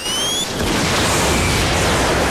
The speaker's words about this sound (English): During the battle, one pirate loads and aims a bazooka. He fires it, and the laser gun is destroyed.